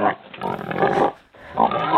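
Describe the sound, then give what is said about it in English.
A human voice imitates a pig's oink: two nasal, grunting bursts separated by a short pause, loud and close. “Oink, oink. That's all you get. Oinky, oinky.”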